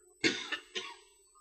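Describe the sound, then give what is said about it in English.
A person coughing: three quick, harsh bursts close together, the first strongest, fairly quiet overall and with no talk. “I'm sorry, still coughing here.”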